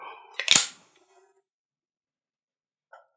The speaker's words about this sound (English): It gets the perfect size, and you just put it right to your mouth, crack it open.